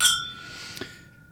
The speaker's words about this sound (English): So raise your glass.